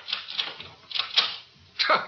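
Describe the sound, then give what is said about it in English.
Faint metallic clicks and rattles as a door is locked, arriving in a few short bursts separated by quiet gaps. “What good is locking that door going to do?”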